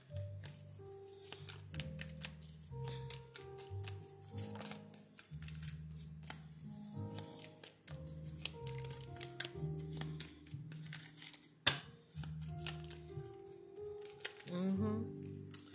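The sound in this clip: Shuffling of a deck of oracle cards: many quick papery riffles and clicks throughout, under soft, steady musical tones.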